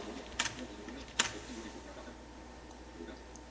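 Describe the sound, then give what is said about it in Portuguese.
Computer keyboard keys are pressed, Alt, Ctrl and Tab, while navigating to a styles and formatting option. Two faint, sharp clicks sound a moment apart over quiet room tone. “Então eu vou teclar Alt, Ctrl Tab até estilo e formatação.”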